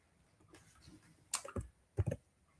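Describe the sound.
Typing on a computer keyboard: a few sharp, fairly quiet keystroke clicks in two short bursts, with no talk.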